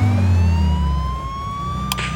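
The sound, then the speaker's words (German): A police car siren winds up, its loud continuous wail rising slowly in pitch over low engine rumble, with a short burst of noise near the end. “Dann gab der Kommissar Vollgas und schaltete Sirene und Blaulicht ein.”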